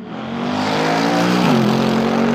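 Loud, sustained engine roar from a carbon-fibre, rear-wheel-drive race car, building over the first half second into a steady, harmonic-rich drone with a brief dip in pitch midway.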